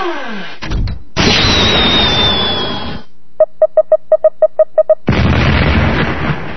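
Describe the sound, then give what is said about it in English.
Retro video game explosions as a big shot strikes an opponent's missile base: harsh bursts of crackling noise and a long roaring blast, then a rapid run of short electronic beeps, followed by another loud noisy burst. “And now, I am going to win the game with this big shot at my opponent's missile base.”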